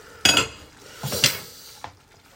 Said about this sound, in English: There it is, a whole yellow pepper going in. And we shall mix that around.